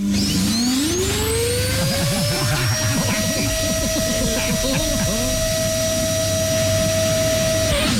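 A vacuum cleaner runs, its motor whine rising quickly as it spins up and then holding as a loud, steady, high-pitched tone over busy rumbling and clattering, before the whine drops away at the very end.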